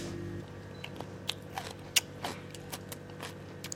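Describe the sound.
Biting and chewing of cucumber pickled with koji: a series of faint, crisp crunches at an uneven pace, quiet and without talk.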